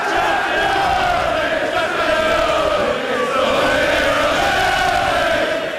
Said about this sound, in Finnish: Ja tältä meno kuulosti lontoolaisessa baarissa, kun pitkään odotettu mestaruus ratkesi.